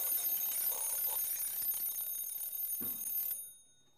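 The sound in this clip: An old mechanical alarm clock, shown among Second World War-era household items, rings in a bright, rapid metallic clatter for about three and a half seconds, then stops abruptly.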